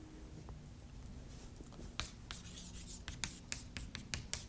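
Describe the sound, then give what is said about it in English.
Handwriting with a pen or pencil: faint, dry scratching strokes that grow busier and sharper in the second half, with short bursts of rubbing against a low steady hum. “I want to write something down here.”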